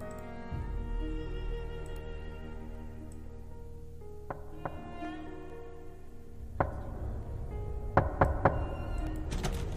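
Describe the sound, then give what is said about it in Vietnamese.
Knocking on a door in a village at night: a few dull knocks over sustained tonal music, the later ones louder and closely spaced. “Thỉnh thoảng người ta nghe được cô ta gõ cửa.”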